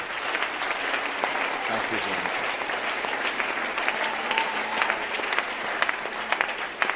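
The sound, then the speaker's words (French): A church audience applauds during a worship service, a dense and steady clapping that runs unbroken through the whole clip at an even, moderate level. “Acclamons le Seigneur notre Dieu.”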